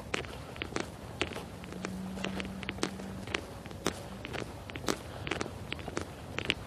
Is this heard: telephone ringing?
no